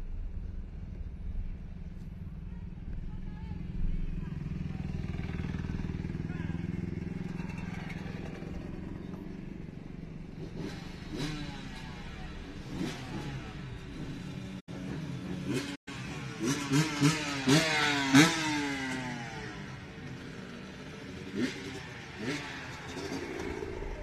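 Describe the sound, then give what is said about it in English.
Engines of ATVs and dirt bikes riding along Broad Street in Edgewood, Rhode Island, rumble steadily, then rev in several loud, rising bursts over the second half, with the throttle swelling and dropping repeatedly. “Here's some bikes right here.”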